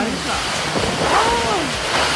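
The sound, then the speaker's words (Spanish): A strong, dry gale blows through Villa San Marcos with no rain, a loud, steady rush of wind noise with faint voices mixed in. “Por acá en Villa San Marcos también parece que se hubiera caído el cielo, pero nada que llueve. Solo viento”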